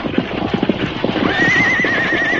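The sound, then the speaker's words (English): Horses' hooves clip-clop in an uneven patter, then a horse lets out a long, wavering, high neigh that rides over the continuing hoofbeats. “Steady there, you horses. Whoa. Whoa up there. Take it easy there.”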